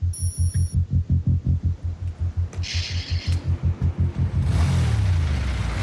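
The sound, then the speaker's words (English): Audio from the Fast Five movie trailer: a fast, even, low throbbing pulse that repeats for several seconds before giving way to a loud, sustained roaring swell. “We're here to talk about Fast Five. I'm going to play the trailer.”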